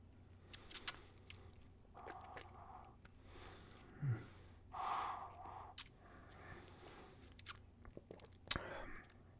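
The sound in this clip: Faint sips of whiskey being tasted, with a few soft slurps, wet mouth sounds and breaths spread across a quiet stretch.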